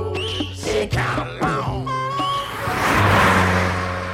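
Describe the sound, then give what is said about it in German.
A car engine on a street revs and hums continuously, its noise swelling louder and rougher toward the end, with no voices heard. “Szene 5. Auf der Straße. Das Auto.”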